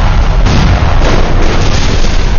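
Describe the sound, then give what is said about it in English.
Missile warheads detonate in one continuous, very loud, deep roaring blast that rumbles without distinct separate bangs for the whole stretch. “Set ablaze, the warheads of the missiles began to detonate.”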